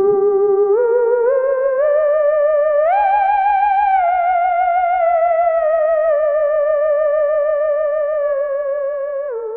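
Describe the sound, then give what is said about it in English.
A theremin, the electronic instrument played by moving hands near an antenna, sounds a loud wavering solo tone with a clear vibrato. It slides upward in steps, then drifts gently back down. “A theremin is a weird electric instrument that is played by moving your hands close to antenna to change the pitch of sounds emanating from the machines. Everyone has heard this noise.”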